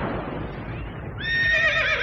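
A horse's neigh used as an opening sting for a media production company's intro, a loud whinny that turns into a bright, shaky, quavering cry near the end.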